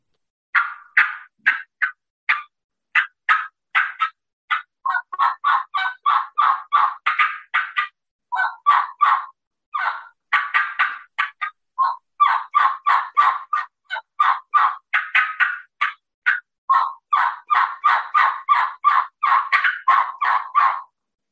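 A hunter works a turkey call, producing long runs of rapid, high, raspy turkey-like notes in quick bursts, with brief pauses between strings, loud and alone without talk.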